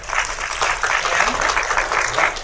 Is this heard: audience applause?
yes